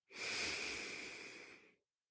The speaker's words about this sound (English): So we'll do it one more time. Big inhale.